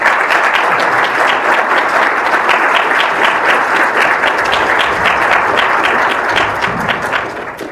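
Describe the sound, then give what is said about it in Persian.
An audience at a talk to young people claps firmly, a dense, steady wash of applause that holds level throughout and thins slightly in the final second. “برای خودتون و اهداف آیندهتون دست محکمی بزنید.”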